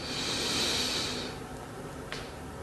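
A deep breath taken during a guided breathing exercise: a long, loud, airy hiss swells for about a second, then gives way to a quieter, softer stretch of breath noise.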